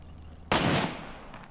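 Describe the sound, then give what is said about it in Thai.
A single sharp gunshot cracks out as an ordinary bullet is fired at C4 explosive, a loud abrupt report with a hissing tail that fades over about a second. “ยิงซีโฟติดไฟด้วยกระสุนธรรมดานะเอาเลย”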